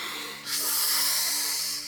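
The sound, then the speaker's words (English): A deep breath drawn in, a loud, airy rushing hiss that swells suddenly and holds steady for over a second before easing, with no talking. “I want you all out there in podcast land to take a deep breath in.”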